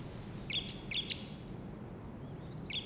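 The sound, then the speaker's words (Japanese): Small birds chirp in a few short clusters of high, thin notes, faint above a steady low background rumble, with no voices. “小鳥が鳴いておる。”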